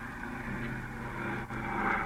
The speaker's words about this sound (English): there it goes into the air. What a beautiful takeoff.